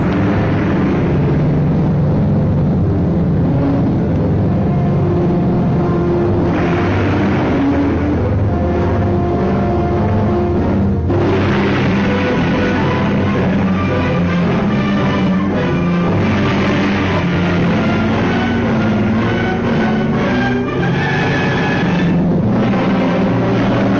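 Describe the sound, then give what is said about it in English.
Dramatic orchestral score from a classic 1950s movie trailer for a Jack Arnold film starring Richard Carlson and Julia Adams, loud and dense throughout, with deep rumbling low end and swelling brassy passages, no voices. “It's a great movie, and we're going to listen to the cool classic 1950s trailer and score for it, and we'll be right back.”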